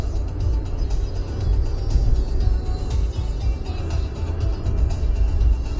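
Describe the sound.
A car drives along streets on the way to a freeway on-ramp. Its engine and tyres make a steady, low, continuous rumble with a faint hiss of road noise on top, and there is no talking.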